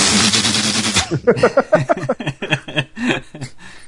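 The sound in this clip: A voice imitating the gunfire of a ripped-out turret in the video game Halo Spartan Ops: a loud, noisy burst followed by a rapid string of staccato, voiced pulses mimicking sustained automatic fire.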